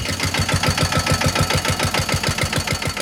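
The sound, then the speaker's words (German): A car engine drives once around a small roundabout in Bad Zell, producing loud, evenly spaced low chugging pulses in a steady, unbroken rhythm for the whole stretch. “Drehen wir eine Runde? Gerne. Ja. Zum Glück hat Bad Zell hier einen kleinen Kreisverkehr gebaut und da fahren wir jetzt einmal eine Runde. Los geht's.”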